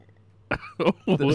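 A person clears their throat with three short, rough, gravelly bursts after a quiet start, the last one longer and lower.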